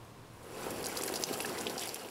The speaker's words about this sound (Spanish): Estoy echando agua en la piscina y esto hace que las hojas, las ramas y los palos se muevan.